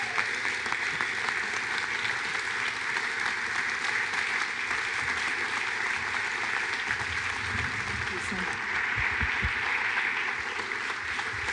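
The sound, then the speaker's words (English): A church audience applauding as a speaker is welcomed to the stage on Mother's Day 2014, a dense, steady wash of clapping that holds at an even level throughout. “it is my privilege and honor to welcome to the stage of this church on Mother's Day 2014, Charisse McIntosh. Give it up for our church.”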